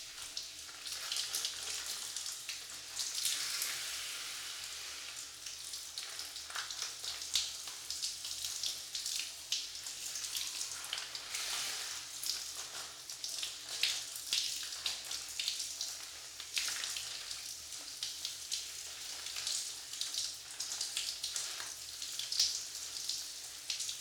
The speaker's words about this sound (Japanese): シャワーですすぎ洗いをしていきますね。目に泡が入らないように、しっかりと閉じていてください。それでは、いきますね。